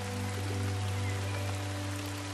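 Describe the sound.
Rain falls inside a forest beneath an evergreen canopy of tall trees. It makes a constant, even hiss with no breaks, and a low steady hum runs underneath.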